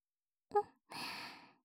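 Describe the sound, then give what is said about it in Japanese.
Gentle blowing into the ear: a brief breathy catch followed by a single soft, airy puff of breath, faint and close, with no talking. “まずは、お耳をふうふうしていきまーす。”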